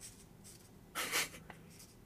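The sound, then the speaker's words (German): Pen writing on paper, a brief scratchy burst of about a quarter second, then a faint short stroke, alone against quiet background hiss. “Schreibe ich direkt auf.”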